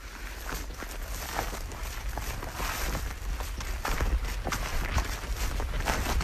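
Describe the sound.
Footsteps walk across heathland, many soft, irregular crunching steps over a steady low rumble, fairly faint throughout.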